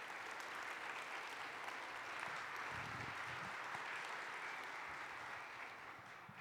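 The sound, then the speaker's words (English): Audience applause welcoming a speaker to the stage: steady, dense clapping that stays loud and even throughout. “So put your hands together and help me welcome Deb Hirsch to the stage.”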